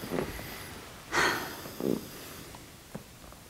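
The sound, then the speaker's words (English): A big deep breath: one strong, noisy intake of air, then a shorter breathy release, with fainter breaths before and after. “And then take a big deep breath.”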